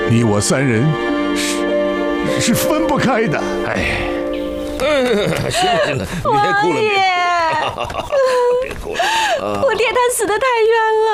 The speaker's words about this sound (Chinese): 行了，别哭了